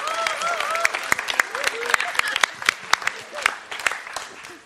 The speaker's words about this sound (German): Geben wir mal der Astrid den kräftigen Applaus.